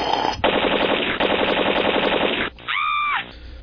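Rapid automatic gunfire rattles out in two long, continuous bursts separated by a tiny gap. The shots are loud and dense, and a brief warbling electronic tone follows. No voices are heard.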